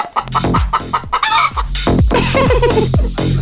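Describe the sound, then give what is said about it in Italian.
Chickens clucking in a henhouse, many hens calling loudly and continuously in overlapping bursts of squawks and clucks, with a few drawn-out, crow-like calls mixed in. “È un pollaio!”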